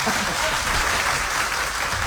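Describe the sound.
A concert audience applauds a singer with thick, sustained clapping, loud and even throughout without a clear break.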